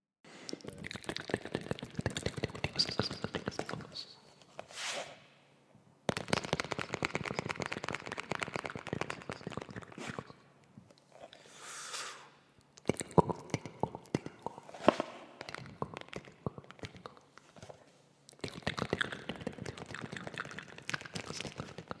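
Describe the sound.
ASMR tapping with some mouth sounds: many quick, faint, crisp taps fall in dense clusters separated by short pauses, with the rhythm changing between passages.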